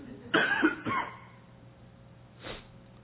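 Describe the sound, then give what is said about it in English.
Coughing from a fly caught in the throat: a loud cluster of harsh coughs, then a shorter cough, and one softer cough after a quiet pause. “Ooh, got something in my throat. That fly, yeah.”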